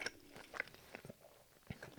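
Someone bites and chews a spiced hot cross bun baked in a pizza shape. A few soft, crunchy bites and quiet mouth sounds are heard, with no talk.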